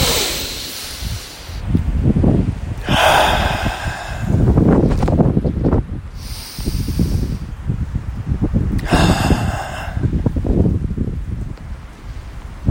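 Deep breaths taken outdoors in the wind: a few long, airy inhales and exhales, each swelling and fading, over low rumbling wind buffeting the microphone.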